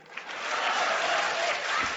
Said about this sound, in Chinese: 热烈鼓掌